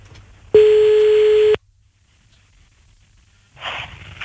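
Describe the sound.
A ringback tone sounds on an outgoing phone call: one steady, loud, mid-pitched tone lasting about a second, then near silence, followed by a burst of breathy noise.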